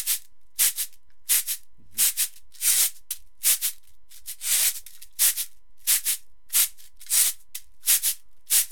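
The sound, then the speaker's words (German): Cabasa percussion instrument being shaken, giving many crisp, hissing rattle bursts in an uneven rhythm, each a short scrape of bright beaded noise with quiet gaps between. “Ein Kabasa. Danke. Und mit dem kannst du halt, ja...”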